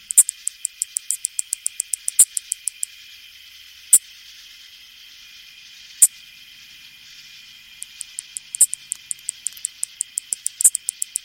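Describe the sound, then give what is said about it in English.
Two male anglewing katydids sing over a steady high insect hiss, with quick even runs of sharp, dry, high ticks broken by a few louder, isolated clicks. “Lang Elliott and Will Hirschberger recorded the sounds of these two male anglewings”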